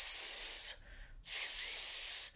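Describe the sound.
A voice makes a sustained hissing "s" sound as a breathing-support exercise, in two long, even bursts separated by a short pause.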